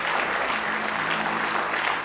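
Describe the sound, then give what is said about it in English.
A church audience claps hands in praise during a worship service, producing dense, steady applause that holds at an even, fairly loud level from start to finish with no pauses. “Give him one more good hand clap of praise tonight.”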